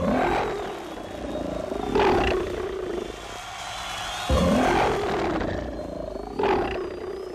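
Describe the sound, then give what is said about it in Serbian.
Lions roaring in a Roman arena: four loud, deep roars come at spaced intervals, each swelling and tailing off, with a lower growling rumble between them. “Lavovi već počinju svoj krvavi posao”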